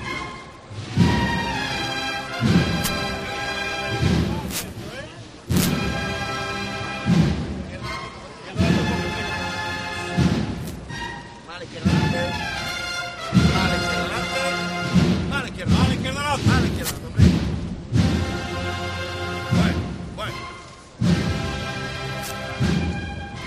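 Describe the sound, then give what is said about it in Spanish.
The brass band of the Nazareno de Huelva plays processional music, loud sustained brass chords punctuated by heavy drum thuds in a steady, repeating march rhythm that runs without a break. “Vamos a escuchar esos sones de la banda del Nazareno de Huelva al Nazareno de la Humildad del Cerro.”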